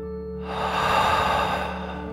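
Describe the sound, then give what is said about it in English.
A deep breath during a children's bedtime breathing exercise: one soft, airy whoosh rises, holds for about a second and fades, moderately loud and alone without talk. “Remember to breathe in through your nose and out through your mouth, like a dragon. Here we go. Deep breath in and out.”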